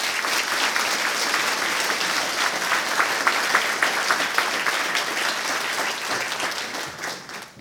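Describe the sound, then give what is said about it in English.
An audience applauds to welcome a speaker to the podium at a lecture event, a dense, steady wash of clapping that holds at an even level and only eases right at the end. “So please join me in welcoming Kathy to the podium.”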